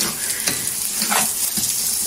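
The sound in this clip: Rice fries in oil in a pan with a loud, steady sizzle and hiss throughout, broken by occasional scraping as it is stirred.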